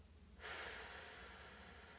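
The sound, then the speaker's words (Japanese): Slow breathing during a guided relaxation breathing exercise: after a moment of near quiet, one long airy breath of steady hissing air begins and fades very gradually, with no voices. “吐き切るはいまた吸ってはい吐きます”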